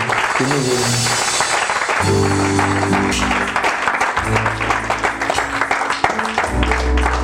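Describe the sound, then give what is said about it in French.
A church audience applauding and acclaiming the Lord: a dense, steady clatter of clapping over sustained music chords that never lets up. “Et je veux que tu puisses encore acclamer le Seigneur.”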